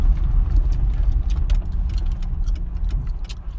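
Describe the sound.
A car being driven toward a highway, its engine and road noise forming a steady low rumble with no voices.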